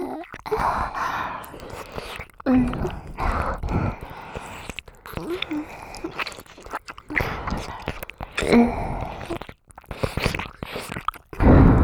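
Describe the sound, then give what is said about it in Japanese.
Wet ASMR mouth sounds of licking and nibbling on an ear: many soft, irregular smacks, slurps and small crunchy bites, fairly loud and close throughout. “お耳おいしいよ。弟のかわいいお耳食べるの興奮しちゃう。”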